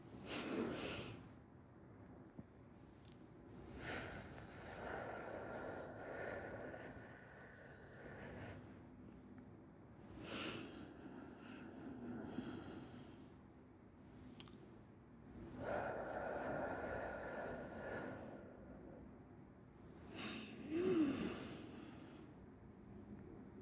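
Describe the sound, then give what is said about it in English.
Slow, deep breaths are drawn in through the nose and released out through the mouth, quiet and airy, with a few long breath cycles separated by short pauses. “We're going to take in one big breath through the nose, and then we're going to release out of the mouth.”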